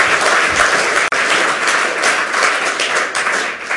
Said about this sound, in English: give the audio angels a huge round of applause for coping with all